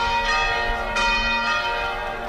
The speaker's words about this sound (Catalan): Avui, a 11:45 del migdia, les campanes al centre d'Olot sonaven així.